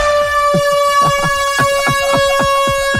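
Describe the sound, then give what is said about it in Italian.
A loud stadium air horn used to imitate a fart, blaring a steady, brassy, sustained tone for the whole clip over a rapid, regular pulsing beneath. “nel bel mezzo della notte ha mollato uno scorreggione tipo tromba da stadio, tipo così.”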